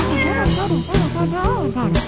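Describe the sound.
Cat meows ring out in a few loud, drawn-out calls, each bending up and then down in pitch, with short gaps between them.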